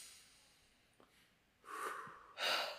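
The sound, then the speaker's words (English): A deep breath drawn in: two breathy rushes of air close together near the end, quiet and alone, after a near-silent stretch with faint clicks. “Breathe in one more time.”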